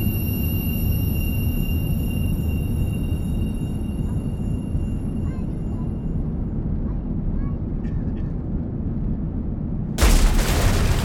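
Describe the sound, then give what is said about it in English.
A spacecraft leaving a planet's exosphere is struck by debris: a sudden loud, harsh impact bursts in near the end, breaking a steady low engine rumble that runs throughout. “There was some unexpected debris as we exited the planet's exosphere.”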